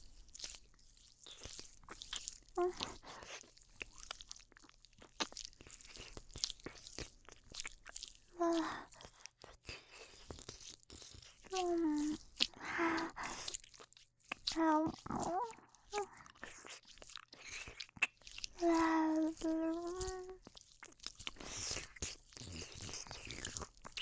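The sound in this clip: Wet chewing, nibbling and biting mouth sounds from an ASMR ear-eating roleplay, soft and close, broken up by breathy voiced sighs and hums.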